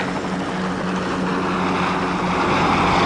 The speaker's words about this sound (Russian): Вертолет улетает.